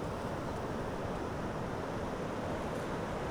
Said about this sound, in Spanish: El mar, ahora sí.